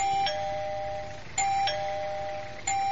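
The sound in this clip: An electronic doorbell rings alone, sounding a few clear, bright chimes. Each tone rings on and fades slowly before the next one strikes.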